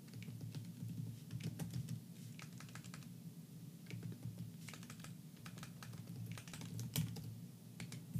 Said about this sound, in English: Okay, I type in the fucking song.